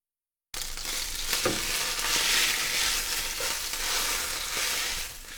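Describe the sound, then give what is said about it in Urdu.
Chicken fillets fry in a frying pan with a steady, dense, crackling sizzle that stays loud and even throughout after a brief silent start. “فلے پک جائیں تو آنچ بند کر دیجیے اور انہیں fry pan سے باہر نکال لیجیے۔”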